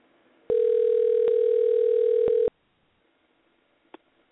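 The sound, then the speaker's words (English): A voicemail tone on a telephone call holds one steady electronic pitch for about two seconds, then cuts off abruptly into near silence broken by a single faint click. “your voicemail just took over as if it had a mind of its own”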